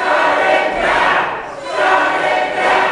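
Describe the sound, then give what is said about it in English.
An angry crowd of protesters at a Los Angeles City Council meeting, a loud roaring mass of shouting voices that swells twice with a brief dip between. “Our top local story, a loud, angry crowd of protesters prompted the LA City Council to stop today's meeting and clear the chambers.”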